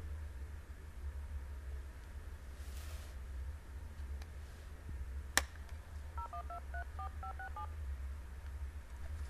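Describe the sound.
Telephone keypad tones as a number is dialed: a short sharp click, then a quick run of many beeping touch-tones at differing pitches, faint over a low steady hum.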